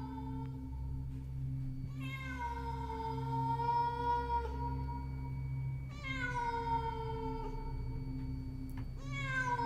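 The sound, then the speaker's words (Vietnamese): A cat yowls in the distance at night. Three long, drawn-out wailing meows rise and waver, with the last one cut short, over a steady low hum. “Từ xa, tiếng của con mèo vẫn còn kêu vang vọng như khiêu khích.”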